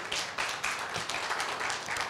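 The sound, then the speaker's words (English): Church audience clapping in praise during a worship service, sustained dense clapping from many people, lively and uneven rather than in a strict beat. “Let's put our hands together like one who's clapping to the Most High God.”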